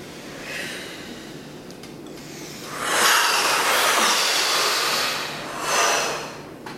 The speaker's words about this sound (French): Voilà, une première fois tous ensemble, inspiration.